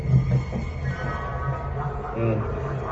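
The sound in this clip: A train pulls into a station with a low, continuous rumble of rolling wagons that holds steady, rising slightly in loudness near the end.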